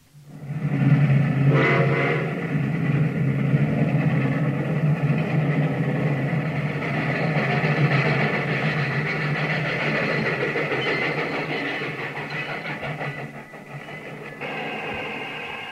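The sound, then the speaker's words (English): A voice imitates the Super Chief passenger train arriving on time, holding a continuous rumbling drone with whistle-like overtones for about fifteen seconds. The tone shifts briefly near the end. “This is an imitation of the Super Chief coming in on time.”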